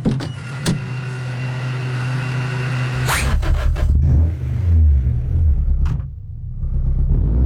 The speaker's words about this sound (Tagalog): Paspas, kusog, wala problema akong sakyanan.